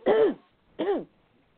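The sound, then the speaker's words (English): Someone clears their throat twice. Each is a short, fairly quiet, rasping grunt whose tone arches up and back down, with a pause between them and no talk. “I'm trying to clear my throat.”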